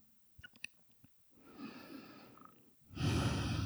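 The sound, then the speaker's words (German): Deep breathing in and out during a guided relaxation exercise: a few soft clicks, then a slow, airy inhale followed by a louder, fuller exhale, with no talk. “Atme tief ein und aus.”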